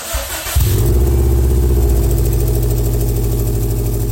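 A freshly repaired Subaru car engine starts up about half a second in, then settles into a loud, steady, rumbling idle that runs evenly to the end, with no talking.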